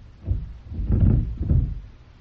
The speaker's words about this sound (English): Why is the door locked? Open it for me.